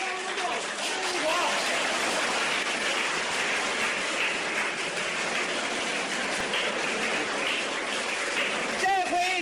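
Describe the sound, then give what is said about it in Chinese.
Loud, dense crowd noise from spectators giving a standing ovation at a table tennis match. The roar of cheering and applause holds steady throughout, with a rise in voices near the end. “庄则栋的高超球艺、充沛的体力、顽强的战斗意志和他惊人的速度，再一次博得了全场观众的起立欢呼。”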